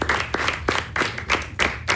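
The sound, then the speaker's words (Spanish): Audience applause for a team's coach at a season event, many hands clapping together in a steady unison rhythm of about three beats per second, loud and dense throughout. “Un aplauso nuevamente para el profesor Julio Graterol.”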